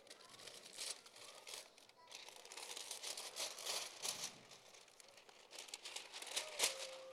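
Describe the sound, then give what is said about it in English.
Gift wrapping paper crinkling and rustling as a present is unwrapped, with many crisp crackles throughout and people talking over the paper sounds. “You can unwrap it.”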